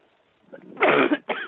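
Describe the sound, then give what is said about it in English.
Harsh coughing from a woman choking after something went down the wrong way on live radio: a faint stir, then a loud burst of coughs, a short break and one more forceful cough. “I think she swallowed and it went down the wrong tube or something”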